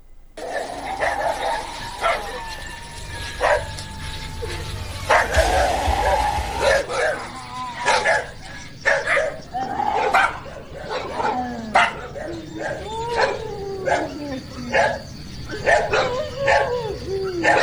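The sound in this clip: Dogs bark repeatedly in many sharp, irregular bursts, mixed with high yips and some whimpering whines over a steady background.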